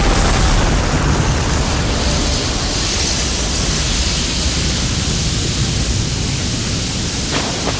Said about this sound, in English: let's blast him to guano! Not the rocket launcher! This tunnel's under the river! You'll drown us all!